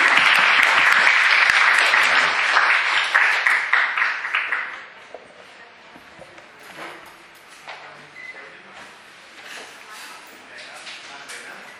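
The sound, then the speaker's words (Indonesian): Audience applause for the presenters at the close of an event, loud, dense clapping for a few seconds that quickly dies away into quieter shuffling and talk. “Kita beri aplaus pada presenter.”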